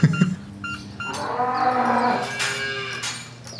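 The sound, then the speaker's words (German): Dairy cows moo in a calving barn. One long, drawn-out, low moo swells and holds for about two and a half seconds, with some shorter barn sounds just before it. “Wir sind hier jetzt im Abkalbestall angekommen.”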